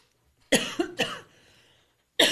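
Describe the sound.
A speaker on a pharmacy health talk coughs and clears the throat in a tight cluster of three harsh, raspy bursts. A pause follows, then another loud burst begins at the end.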